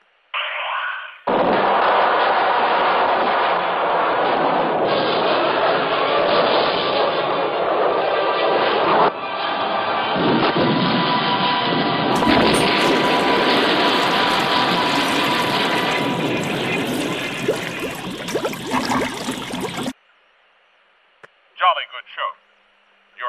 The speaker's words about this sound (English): Fire number four, torpedo two. Fire number four. Number four.